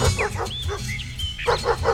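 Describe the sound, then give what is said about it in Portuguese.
A pack of dogs barks on a neighbourhood street: sharp, overlapping barks and yaps in quick bursts, a brief lull midway, then another loud flurry. “O Zé Maria lá na Rua 9, brigando com a cachorrada.”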